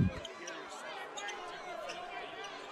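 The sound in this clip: A basketball is dribbled on the court during a boys' state basketball game, its bounces faint beneath steady crowd chatter and voices.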